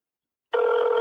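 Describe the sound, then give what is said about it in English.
A telephone rings on an outgoing call: after a moment of silence, a single steady electronic ring tone starts abruptly and holds evenly to the end. “I feel like I should just let this ring until somebody picks up, like, for the rest of the show.”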